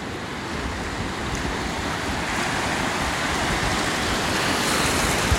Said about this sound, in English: But, like, Jesus Christ, the ambiance of the beach is amazing. Just hear this amazing sound.